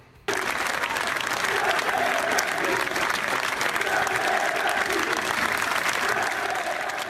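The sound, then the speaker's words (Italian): A whole football stadium crowd applauds their team's relegation: dense, steady clapping that starts abruptly and holds at an even, loud level to the end, with no distinct voices rising above it. “Questi sono gli applausi del Matusa per il Frosinone. Uno stadio intero che applaude una retrocessione.”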